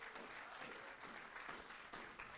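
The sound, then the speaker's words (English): Congregation clapping hands in praise during a worship service: dense, steady applause from many hands that holds without pause from start to finish. “Let's give him a hand clap of praise tonight.”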